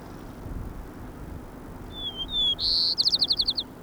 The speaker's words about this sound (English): White Crown Sparrow A. 1.